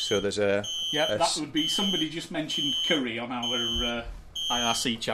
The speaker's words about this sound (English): Oh, and there's an alarm going off.